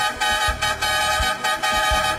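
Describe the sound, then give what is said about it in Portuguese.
Vehicle horn honking in repeated loud blasts: a rich, buzzy sustained tone sounding in several bursts with brief dips between them, and no voices. “Chama na buzina, meu irmão.”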